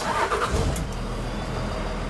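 A truck engine starting, with a louder burst of noise at first that settles into a steady, low engine rumble.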